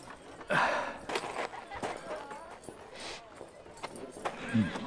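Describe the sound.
Horse hooves clip-clop as a steel dust horse is led away along a Western town street and a rider swings down from the saddle, the faint, uneven steps playing under a man's narration.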